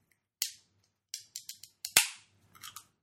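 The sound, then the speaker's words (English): Faint, sharp metallic clicks and pops come from 16-ounce beer cans being opened. There are several quick cracks in a row, then a few softer ones, with no talking. “I'm sure people are hearing that, like, it's taking me longer to open these cans because I'm trying not to hurt my fingers since I just cut my nails.”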